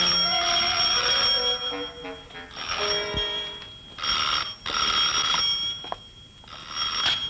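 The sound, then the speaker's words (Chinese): An old bell-type telephone rings in a Cantonese film scene, sounding as repeated bright, jangling bursts with short pauses between them. No voices are heard over the ringing. “你嘅电话又嚟”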